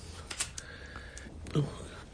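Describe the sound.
Sharp clicks of an old, reliable cigarette lighter in use for twenty years, a few brief metallic snaps over a faint steady background.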